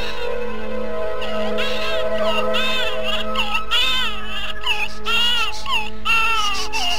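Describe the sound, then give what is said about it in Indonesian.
A baby wails in a beggar's lodging, loud repeated crying bursts with wavering high pitch that rises and falls, over a low steady hum. “Di pemondokan pengemis Ki Ageng Lindu, terdengar tangis bayi.”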